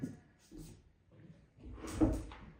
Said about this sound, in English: Let me just close this door.